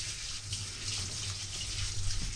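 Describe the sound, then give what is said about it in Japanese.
Tap water runs steadily over rice being rinsed, a continuous faint splashing hiss with a low hum underneath, with no voices. “まずお米を研ぎます。”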